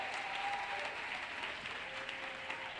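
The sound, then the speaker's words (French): An audience applauding for Jesus at a French-speaking church service produces a continuous, full applause of many hands that holds steady throughout. “Est-ce que quelqu'un peut acclamer pour Jésus ce matin?”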